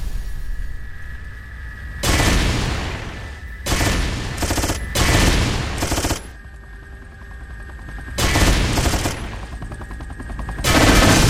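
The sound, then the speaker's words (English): Machine gun fire from the video game Judgment Day: several loud bursts of rapid gunfire broken by short pauses, over a steady background hum. “Rockets. Nukes. Machine gun.”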